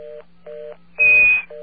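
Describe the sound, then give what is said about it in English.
Touch-tone telephone keypad entering a calling card number on an AT&T call: a few evenly spaced, moderately loud DTMF tones over a faint line hum, with one louder, harsher noisy burst in the middle, and no voices. “Please dial your card number or 0 for an operator now.”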